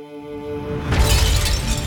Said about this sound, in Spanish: En pocos segundos, las cuatro baldosas estallan en pedazos.